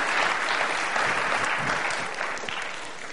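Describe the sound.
A church audience claps to welcome a guest speaker, with dense, steady applause that eases off slightly near the end.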